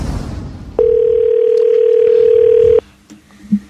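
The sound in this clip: A telephone dial tone sounds while a call is placed: one loud, steady, unbroken tone at a single pitch for about two seconds, then stops abruptly, followed by a few faint clicks.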